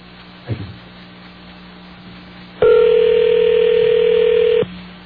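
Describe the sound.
A single steady ringing tone on a telephone call, lasting about two seconds at an even pitch, comes after a soft knock over a low line hum.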